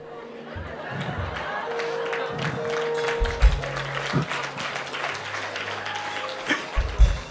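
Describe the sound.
Congregation clapping during a church sermon, with scattered, uneven claps over a murmur of voices and a few sharper, louder claps toward the end.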